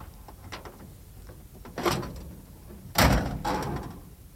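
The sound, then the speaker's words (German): The hood of a broken-down Studebaker car, which stopped moving when a gear was shifted, is opened: a few light clicks and rattles, then two solid metallic thunks, the second louder, each trailing off briefly. “Wollen Sie mal die Haube aufmachen?”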